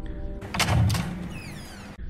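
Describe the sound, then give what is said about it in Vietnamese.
A door to the neighbouring room opening: a sustained scraping swish of about a second and a half, with a thin, squeaky whine toward its end, alone and fairly quiet. “Có tiếng mở cửa phòng bên cạnh.”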